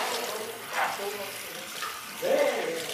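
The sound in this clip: Running water as a gloved stylist washes a customer's hair at a hair salon, a soft, steady splashing hiss with brief murmuring voices over it.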